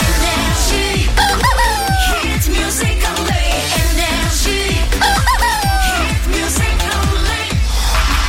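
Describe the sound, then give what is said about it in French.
A rooster crows a few times, loud and shrill, mixed over a driving music track with a steady, heavy beat that runs without a break through the whole stretch. “Amenez-moi le coq.”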